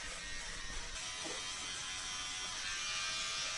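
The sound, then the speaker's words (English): Electric clippers trimming a shaving mark into the rump fur of a habituated female animal give off a faint, steady, high buzz throughout. “So each of the females has an individual shaving mark, which we just clip a little bit of their hair of the fur.”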